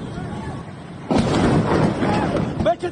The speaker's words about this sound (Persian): صدای جنگنده آمد و بعد بمباران.